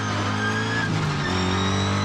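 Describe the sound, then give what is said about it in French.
Engine of a car without ABS accelerating on a dirt road, with a loud gearbox whine, as it slides into a drift. A steady, loud, buzzing drone with a shift in engine tone partway through. “j'arrive, allez, 3, 2, un peu gros bruit de boîte, hop, j'accélère. La caisse part en drift direct.”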